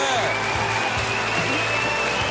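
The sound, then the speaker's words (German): Applause from a studio audience on a German television show forms a thick, continuous wash of clapping, with talk running over it. “Schön, danke vielmals für den Applaus.”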